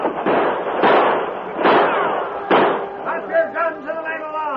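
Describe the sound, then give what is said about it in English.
Gunshots as men charge up a ship's gangplank, firing as they come: four sharp, loud bursts spaced under a second apart, followed by voices. “ran up the gangplank, firing as they came.”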